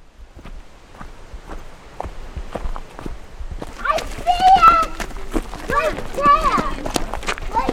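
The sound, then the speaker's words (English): Footsteps of a hiker in the wilderness of the White Mountains, New Hampshire, on a crisp fall day: steady crunching steps, alone at first, then continuing beneath a person talking. “It's a crisp fall day in the White Mountains of New Hampshire, where I'm out hiking in the wilderness.”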